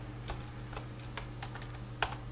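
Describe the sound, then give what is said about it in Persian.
Sparse keystrokes on a computer keyboard while a name is typed: a few soft, separate clicks at an uneven pace, with one sharper tap near the end, over a steady low hum. “باید نام رو وارد بکنم. اسمم رو اینجا می نویسم.”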